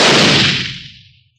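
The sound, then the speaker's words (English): A single loud blast from an old powder-charged blunderbuss, loaded with a gold nugget as the bullet and fired into rock beside a mine shaft opening. It is a sharp, broad boom that decays steadily over about a second into silence, with no voices. “I'm going to put a charge of powder in this old blunderbuss. Tamp the wadding. Use a nugget for a bullet. And fire into the rock near the shaft opening.”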